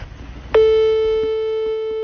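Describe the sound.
A telephone call tone from a mobile phone as a call is placed: after a short, faint noisy lead-in, a single loud, steady electronic tone starts abruptly and holds unbroken to the end.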